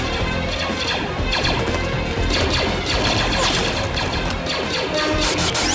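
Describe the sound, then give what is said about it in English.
Film sound effect of a robot droid collapsing with a metallic crash during a blaster battle in a monastery courtyard: dense, continuous clattering and smashing metal noise, loud and busy throughout, with no single clear impact standing out. “The clones in the courtyard fire on a scuttling vulture droid, which collapses onto a super battle droid.”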